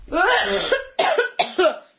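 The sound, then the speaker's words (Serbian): Coughing: one drawn-out rough cough followed by a few shorter, abrupt bursts, alone without talk. “kašalj, to je kašalj”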